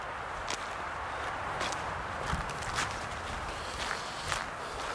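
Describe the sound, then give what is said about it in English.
Footsteps of a person walking down a road through a campground: many crisp steps at a steady walking pace over a constant rushing background noise, with no talk. “Okay, yeah, kind of walking down the road here.”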